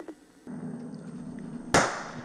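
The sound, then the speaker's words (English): A single sharp gunshot from a suspect armed with an AK-47 and a shotgun during a police standoff cracks loudly out of a low, steady hum, then rings briefly and fades. “Shots fired at me again.”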